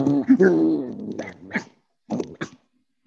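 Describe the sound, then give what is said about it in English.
A person imitates a barking dog with a drawn-out whining vocal sound, then several short, sharp bark-like yelps with brief gaps between them. “That's why I bark at them instead.”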